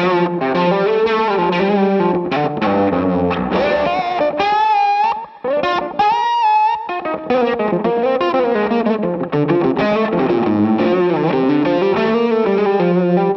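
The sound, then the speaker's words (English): Electric guitar through an overdrive pedal with a buzzy, twangy, sitar-like tone: a continuous run of distorted notes with bends and wavering pitch, loud and alone. “Almost like sitar-y. But with the overdrive on.”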